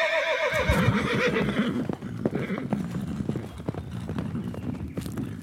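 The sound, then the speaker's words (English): Horses carry a king and his army away, a whinny ringing out at the start over many brisk clip-clopping hoofbeats that keep on in an uneven, busy rhythm. “And with that, the king and his army rode away.”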